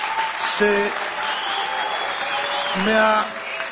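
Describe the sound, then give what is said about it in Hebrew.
Sustained applause for a deputy mayor from an audience, a dense, even clatter of clapping lasting several seconds, with voices and brief tonal sounds rising over it. “מגיע הרבה הרבה הרבה מחיאות כפיים לסגן ראש עיר הרב עזרן”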